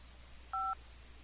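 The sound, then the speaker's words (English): A single short push-button tone from pressing the 5 key on a phone keypad sounds once, steady and clear, with quiet background before and after. “So I'm going to wake the phone up. Okay? And I'm going to press just the number 5, for example.”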